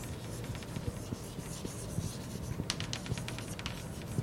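Handwriting while noting something down: a steady, scratchy stream of many short pen or chalk strokes, with sharper marks in the second half, running over a low, constant hum and no talk.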